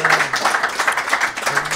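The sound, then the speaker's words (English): Audience applause at a live comedy show, coaxing a guest up to the microphone: a brisk patter of claps that pulses in quick, regular bursts and stays fairly loud throughout. “Keep the applause going because maybe he needs coaxing.”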